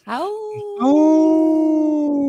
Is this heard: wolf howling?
yes